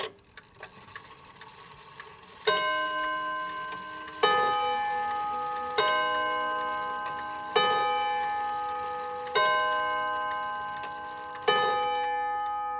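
An old clock strikes six ringing, bell-like chimes at a steady, even pace, each one decaying before the next. Faint ticking can be heard before the first chime.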